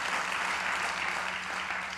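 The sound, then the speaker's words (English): A church audience claps in a steady, dense wash of applause that holds at an even loudness for about two seconds and eases slightly at the end. “Come on, if we're gonna clap, let's do it well.”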